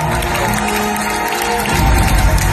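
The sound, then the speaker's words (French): An audience cheers and applauds at a Grand Rex film marathon as the first opening credits start, a loud, continuous crowd roar that swells further near the end. “Et écoutez la réaction du public au lancement du premier générique, les gens étaient hystériques.”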